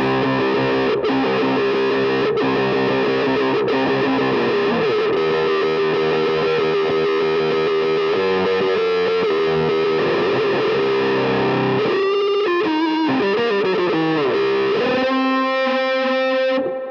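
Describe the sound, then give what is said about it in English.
Heavily fuzzed electric guitar played through a Vox reissue wah pedal, which gives the fuzz tone without a fuzz pedal. Sustained, buzzing distorted notes and chords ring out alone, shifting pitch, with choppier, bending phrases near the end. “one of the main things is you can get this weird fuzzed out sound without using a fuzz pedal”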